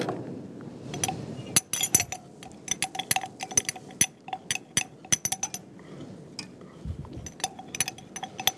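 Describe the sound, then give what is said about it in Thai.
A spoon scrapes and stirs a salt and flour scrub in a bowl, giving many sharp, bright clinks and taps against the bowl over a soft, continuous scraping. The rhythm is irregular and moderately loud, with no talking. “ก็คนเบาๆนะคะคนเบาๆ”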